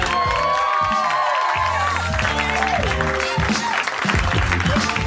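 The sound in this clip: Applause and cheering from an audience welcoming the host of a live comedy show: dense, steady clapping mixed with whoops and shouts, with voices throughout.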